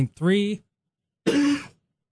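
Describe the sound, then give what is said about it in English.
A sudden, big cough: two loud, rough, voiced bursts separated by a short silence, the first longer than the second. “Big cough just all of a sudden came on.”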